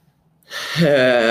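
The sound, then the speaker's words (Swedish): One big, deep breath is drawn in sharply after near silence. The noisy, airy inhale swells and then carries into a steady voiced tone. “han tog ett stort fett andetag. Och det är jättebra.”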